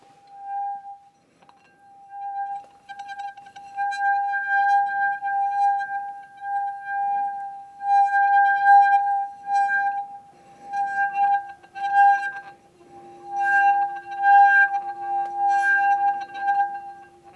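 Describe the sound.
Singing tone of a finger rubbing the rim of a water-soaked wine glass: a pure, sustained ringing hum with a bright overtone, swelling and fading in repeated waves as the finger circles, with faint squeaky friction.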